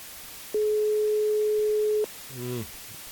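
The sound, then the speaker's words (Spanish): Telephone ringback tone on an outgoing call to book a haircut: a single steady, flat mid-pitched beep of about a second and a half, alone against near silence. “Ahí está, un tono. Dos tonos.”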